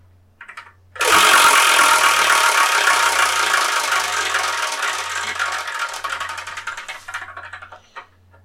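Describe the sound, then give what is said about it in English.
A numbered prize wheel spins with a loud burst of rapid clattering ticks that hold steady, then gradually thin out and slow before stopping. “we're going to spin this wheel of manga, and whatever number it lands on, that's what we review in the next episode of the Spyrokin Manga Review.”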